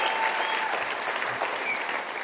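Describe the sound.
A church audience applauds to welcome its other campuses, with a brief burst of dense, steady clapping from many hands.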